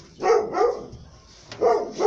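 A dog barking: four sharp, mid-pitched barks in two pairs separated by a short pause, loud and with no talking.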